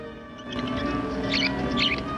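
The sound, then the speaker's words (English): Caged birds belonging to an old woman give a few short, faint, high chirps over a steady tonal hum, with no voices. “Then he looks down at an old woman's birds in a cage next to him.”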